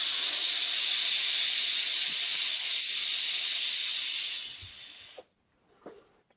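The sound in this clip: Steady, loud hiss of a vape device as its button is held and vapour is drawn in, lasting about four and a half seconds before tapering away. A couple of faint, soft sounds follow in the quiet.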